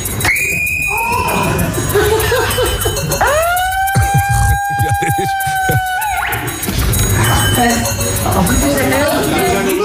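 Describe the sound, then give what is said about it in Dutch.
A handheld megaphone's siren, set too loud, sounds in two harsh bursts: a short tone first, then a longer wail that sweeps upward and holds. Voices talk around it. “hij heeft voor zijn verjaardag een megafoon gekregen. Oh, god. Ja, dat is niet handig. Hij staat een beetje te hard.”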